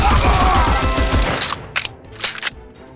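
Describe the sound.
Rifle gunfire in a video game: rapid automatic shots rattle loudly through the first half, then give way to a few sharp, isolated metallic bursts over quieter background.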